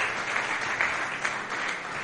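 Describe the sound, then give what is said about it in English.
A church audience applauds in honor of the ministers present: steady, dense clapping at moderate volume, with a few slightly louder swells and no distinct rhythm. “Please, let's give a round of applause to all the servants of God that are in the house.”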